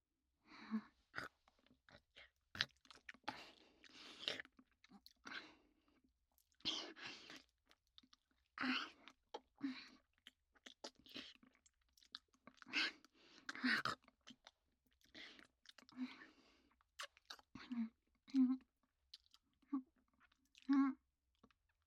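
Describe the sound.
Chewing and mouth noises while eating dinner come in quiet, irregular bursts of crunchy bites and soft smacks, separated by short pauses.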